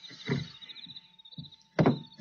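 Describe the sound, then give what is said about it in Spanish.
An unlocked house window is opened from outside by an intruder. Two low, muffled thuds, one at the start and one near the end, have faint clicks between them and a thin steady tone underneath. “Voy a saltar por esta ventana y lo voy a esperar.”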